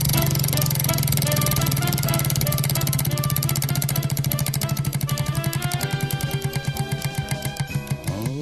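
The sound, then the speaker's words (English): A spinning prize wheel clatters in a rapid stream of ticks that spread out and slow as it coasts toward a stop, over a steady low hum. “Here we go. Spinning the wheel. Spin that sucker.”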